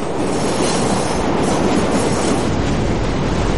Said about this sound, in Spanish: El tren se acerca.